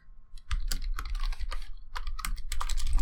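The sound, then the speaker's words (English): Fingers type rapidly on a computer keyboard, producing many quick, irregular key clicks at a fairly low level, with no voices. “I typed a Y instead of a T.”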